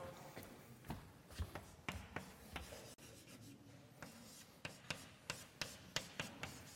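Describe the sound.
Writing on a board during a maths lesson on logarithms: quiet, irregular strokes, scrapes and taps, some sharp and some longer rubbing marks, with short pauses between groups of strokes and no voices.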